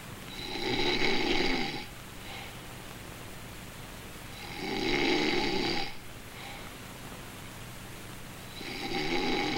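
A man snores while sleeping in a room at a tourist motel at night: three long, loud, rasping snores rising out of quiet, spaced evenly about four seconds apart in a slow, steady rhythm.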